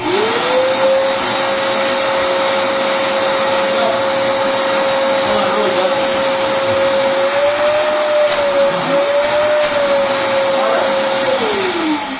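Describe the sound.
Ridgid 6-gallon shop vacuum with a smaller motor and a small hose, running with a loud, steady motor whine and airy rush that spins up at the start and winds down near the end.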